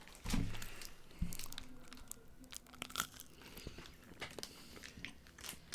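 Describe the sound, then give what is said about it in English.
Two sharp, crisp bites into a crunchy habanero snack, followed by faint, steady chewing and crunching with no talking. “I'm gonna try another piece of this strive. Hold on, let me get some ASMR on this one.”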